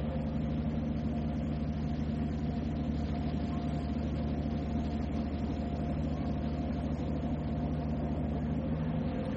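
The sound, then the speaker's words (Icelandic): A boat engine runs at the stern, giving a steady, loud, low drone with a constant pitch and even level throughout, and no other sounds on top. “Á þessum stað í botnum verður hávaðinn í vélinni það mestur. Hlustum á vélina.”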